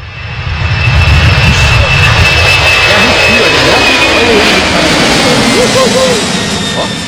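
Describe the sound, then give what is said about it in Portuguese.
A Singapore Airlines jet airliner sound effect: a loud, steady jet-engine roar that swells in during the first second, holds, and eases off slightly near the end. “Todo dia nós vamos soltar um avião da Singapore Airlines no ar. Ah, é? Esse avião aqui já tá valendo.”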